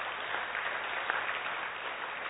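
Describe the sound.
Audience applause, a steady, dense wash of many hands clapping that stays even and fairly soft from start to finish.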